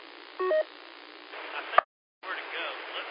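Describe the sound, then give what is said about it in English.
A short touch-tone DTMF beep sounds near the start of a hissy, band-limited radio transmission. A click and a brief dropout follow before the noisy carrier returns. “I want you to help me with that touch tone in there. Did you hear it again as I keyed up?”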